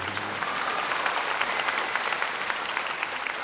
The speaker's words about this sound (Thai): ตบมือนะครับก็ยินดีต้อนรับท่านมุ้ยนะครับ